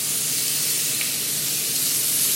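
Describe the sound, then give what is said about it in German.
Beef steaks for Tagliata di Manzo searing in a hot pan, giving an even, bright sizzling hiss that holds steady throughout. “Steaks für die Tagliata di Manzo, ein italienischer Klassiker.”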